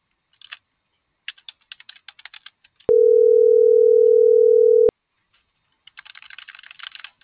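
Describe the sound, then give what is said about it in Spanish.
A telephone number is dialed with scattered clicking key presses, then a loud, steady mid-pitched tone holds for about two seconds and cuts off, followed by a faster burst of key clicks. “Y le estoy marcando a la 114 de Godoy.”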